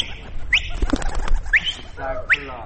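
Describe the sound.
Domestic pigeons in a flock kept in Ghazni, Afghanistan, calling and cooing, with a few short rising chirps and a low, throaty coo near the end, moderately loud.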